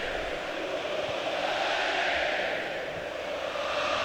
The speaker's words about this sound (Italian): olè del pubblico napoletano, giustificato questa sera visto il risultato favorevole alla formazione azzurra.